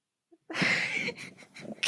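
A person sneezes: a faint catch of breath, then a sharp, breathy burst trailing into softer rough, snorting breath noise.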